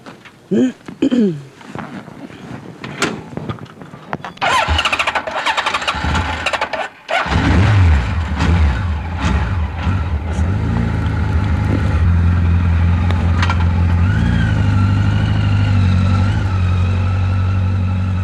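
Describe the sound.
A motorcycle engine starts up on a gravel road leading to a cabin, then runs loud and steady as the rider opens the throttle, its buzzing note climbing briefly. Voices talk in the first part before the engine catches.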